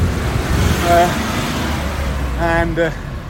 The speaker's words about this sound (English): busy with this kind of constant flow of traffic that moves through this village.